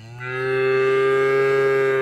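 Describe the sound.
Cow mooing in a milk advertisement: one long, loud moo, rich and steady in pitch, sounding alone for about two seconds.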